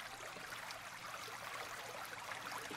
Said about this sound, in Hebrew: היום דווקא בא לי ככה לעבוד עם הצלילים של מים זורמים, של נחל, שאתם שומעים בו באוזניות.